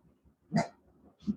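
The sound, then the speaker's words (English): Dog barking: two short, faint barks separated by a brief pause, with no voices and only quiet breathing-like noise between them. “My dog is barking at somebody who's here.”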